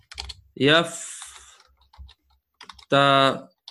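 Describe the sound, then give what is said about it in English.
Typing on a computer keyboard gives light, scattered clicks between two loud, drawn-out spoken phrases. “You can unmute, inshallah, and join me as I type this in.”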